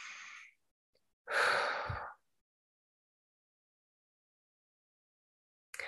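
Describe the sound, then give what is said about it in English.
A deep breath: a soft brief breath in, then a louder, longer breathy exhale like a sigh, followed by quiet. “Let's just take a nice deep breath here.”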